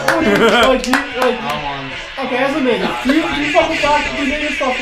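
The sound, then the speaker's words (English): A few scattered handclaps from an audience open the moment, quickly giving way to loud talking and laughing voices that dominate the rest. “Give a round of applause for the Native American population.”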